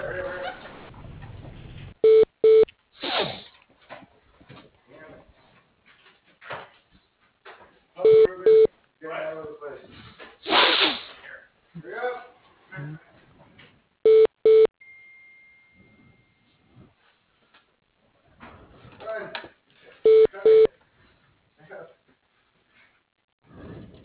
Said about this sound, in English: Yeah, I'll transfer you. Give me just one moment, please.